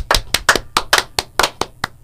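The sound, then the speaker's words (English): Hand claps in a quick, rhythmic pattern: a rapid run of crisp, evenly spaced claps played alone, each sharp and bright. “No more Asian hand claps.”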